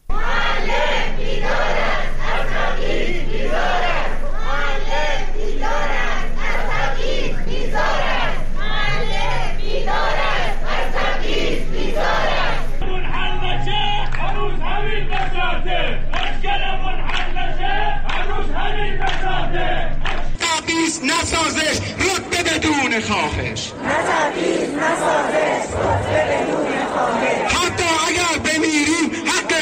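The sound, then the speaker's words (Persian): Crowd of teachers protesting for better monthly pay in Iranian cities: many voices chanting and shouting together, loud and dense throughout. “اینها چند نمونه از صدای تظاهرات معلمان در روز پنجشنبه در شهرهای مختلف ایران بود”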